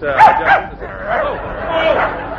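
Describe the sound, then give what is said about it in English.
A small, playful dog clinging to a man's leg yips and whimpers, a couple of sharp high barks followed by longer whining cries, fairly loud. “It is the dog basket. Oh, come along, Pinky. Pinky dear, Pinky. Let go of the gentleman's leg, Pinky. Oh, dear, you see, he's a playful little fellow.”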